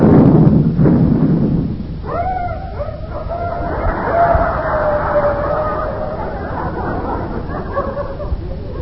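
A ship's gun fires a live round: a deep, heavy boom at the start gives way to a long, loud rolling rumble that carries on steadily to the end.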